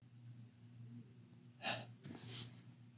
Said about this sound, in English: You're breathing so heavily. Calm down. Calm down.